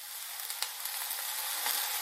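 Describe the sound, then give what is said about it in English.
Mushrooms sizzle in a hot frying pan as they are gently pushed around with a spoon, giving a steady, bright hiss with a few soft taps and scrapes. “I just kind of like gently push the mushrooms around so they all, most of them anyway, are touching the bottom of the pan.”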